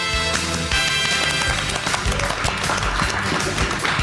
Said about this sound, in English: Another sitting ovation. The audience here is not motivated to stand